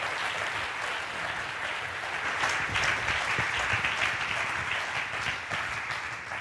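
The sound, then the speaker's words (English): Audience applause welcoming a man forward at a Bible-study gathering, a dense, even wash of many hands clapping that runs unbroken for about six seconds. “would you guys please join your hands in welcoming the man”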